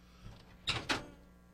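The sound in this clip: A door opening to let a dog out: a faint soft knock, then two quick, sharp scraping clunks close together against a quiet background.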